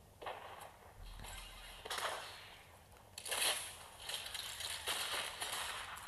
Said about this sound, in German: Äh, ich schieße einfach durchgehend Raketen auf die andere Base.